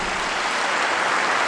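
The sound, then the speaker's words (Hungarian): Applause from pilgrims greeting Pope Francis in the hall, a dense, continuous roar of clapping that holds loud and steady through the short stretch. “És ezt egy óriási tapsviharral viszonozzák a teremben levő zarándokok.”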